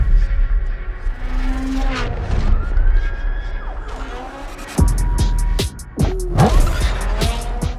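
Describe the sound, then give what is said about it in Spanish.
Engine roar, screeching tires and wailing police sirens come from urban street racing in the video game Need for Speed Unbound, with sweeping pitch glides and a loud burst midway. “Bueno, empezamos hoy con carreras urbanas al servicio de la más vibrante y realista sensación de velocidad. Esto es Need for Speed Unbound.”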